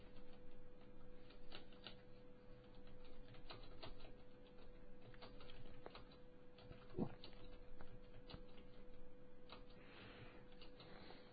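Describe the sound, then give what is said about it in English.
Typing on a computer keyboard: many quick, faint key clicks in an uneven rhythm over a low steady hum, with no talk. “Hold on. I can't type and talk at the same time.”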